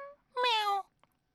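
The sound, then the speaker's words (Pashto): A human voice imitates a kitten's meow: a short high lead-in note, then one drawn-out, high, nasal mew with a slightly falling pitch, followed by a faint click. “تصویر کې یو سپینه پیشو ناسته ده او هغه د لرې نه آواز کوي پیشو څنګه آواز کوي”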